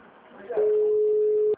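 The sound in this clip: A telephone ringback tone sounds while a call is placed again to an office switchboard: one steady, level tone, loud and about a second long, rising out of a faint murmur and cutting off abruptly.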